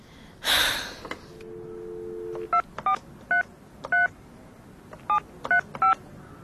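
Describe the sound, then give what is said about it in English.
A telephone number being dialed: after a sharp burst of breathy noise, a steady low dial tone sounds, then a quick, uneven series of touch-tone beeps follows in short clusters. “Try the number again.”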